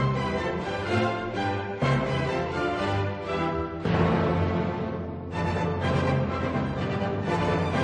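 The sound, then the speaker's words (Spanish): Orchestral music in a new Hamburg concert hall: a full ensemble plays dense, sustained chords with deep low strings, steady and fairly loud, moving through a few phrase changes without any voices. “suena a Brahms, pero no hay que fijarse en lo que suena ni tampoco en quién lo toca, sino en dónde suena”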